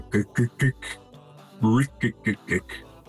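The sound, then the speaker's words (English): A human voice imitates creatures croaking together in chorus as if rehearsing, with a string of rhythmic, buzzy, pitched croaks, a short pause, then another run of similar pulsing croaks. “You can see that some of them, like, they're kind of croaking away, and you just hear this kind of”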